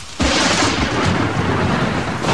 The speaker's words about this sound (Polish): Postępujące globalne ocieplenie to więcej piorunów uderzających w ziemię.